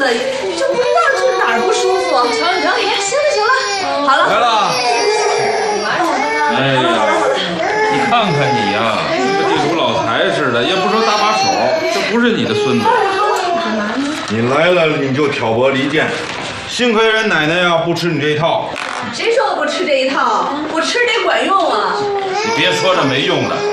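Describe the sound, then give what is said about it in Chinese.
Small children cry and wail for a long stretch, their high, wavering sobs mixed with adults talking over them throughout. “大老远就听着他们在这儿哭，不知道的还以为你们这儿是托儿所呢。”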